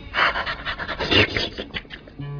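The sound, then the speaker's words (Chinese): Dog panting in a dramatized scene: quick, rhythmic breathy huffs repeating steadily throughout, fairly loud and alone with no talk. “我好中意只狗啊！”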